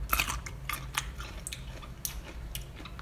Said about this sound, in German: jetzt noch eine Gewürzgurke essen. Schmeckt auf jeden Fall ganz gut.